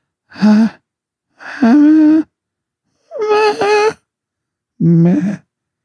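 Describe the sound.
A voice mockingly imitates a pop singer's singing with four separate breathy, sighing vocal phrases, each a wavering held tone separated by silence.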